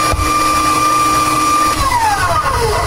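A food processor slices a potato with a hand on the pusher, its motor giving a loud, steady high whine. Near the end the whine drops in pitch as the machine slows.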